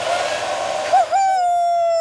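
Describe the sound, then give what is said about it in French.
A hair dryer runs at a hairdresser's, giving a steady whining hum that wobbles briefly in pitch before settling into an even, sustained tone. “Le coiffeur ouvre un tiroir à côté du miroir pour prendre le sèche-cheveux.”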